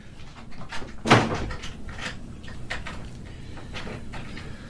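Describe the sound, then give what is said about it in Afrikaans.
A door is shut with one sharp, loud thud early on, followed by a few softer knocks and rustling. “sluit die deur. Ek maak so.”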